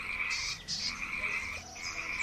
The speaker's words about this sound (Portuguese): Por sua vez, a rã coaxava e lamentava-se.